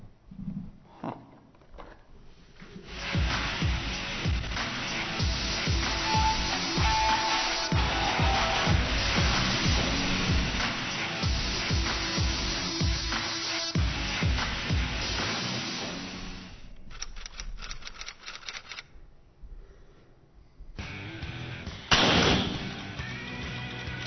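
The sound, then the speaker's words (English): .50 caliber air gun firing an air bolt: a long stretch of loud, steady rushing noise, then a single sharp, loud report near the end. “Air bolt, 50 caliber air gun bolt.”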